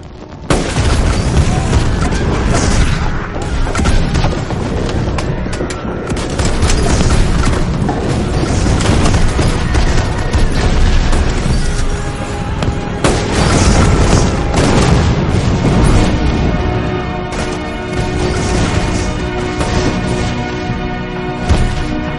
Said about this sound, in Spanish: La zanja explota.